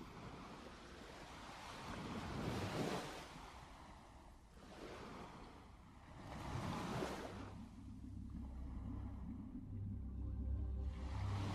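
Ocean waves wash onto a beach in a few slow, soft swells that rise and fall, quiet and airy, with a low sustained tone coming in during the later part.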